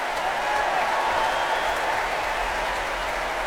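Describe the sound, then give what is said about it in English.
Adult choirs and an orchestra applaud children's primary school choirs with a continuous, even roar of clapping that stays level from start to finish. “And they are being cheered now by the adult choirs and the orchestra”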